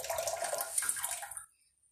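Running tap water while hands are washed, a steady hissing flow for about a second and a half that cuts off, leaving near silence.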